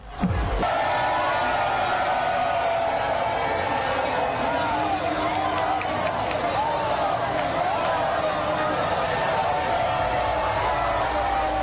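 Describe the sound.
Crowd cheering and celebrating in Spain after a World Cup victory, a dense, loud roar of many voices with whoops and wavering shouted tones rising above it, sustained without a break.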